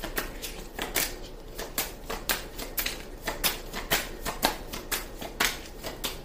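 A deck of tarot cards is shuffled by hand, producing many quick, crisp papery bursts in a steady, slightly uneven rhythm, faint and with no voices.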